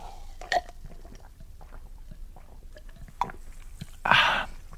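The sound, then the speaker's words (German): A man gulps beer between lines, giving a few short wet swallowing sounds followed by a louder, rougher burp-like burst near the end, with quiet background hiss. “Sie erlauben, dass ich nebenher Bier trinke. Ich habe einen wahnsinnigen Flüssigkeitsverlust.”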